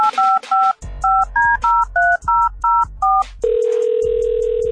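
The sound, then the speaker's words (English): Touch-tone beeps as a telephone number is dialed: a quick run of about ten short two-tone beeps in an uneven rhythm, followed by a steady, continuous, lower tone from the line. “Let's call somebody up and hook them up.”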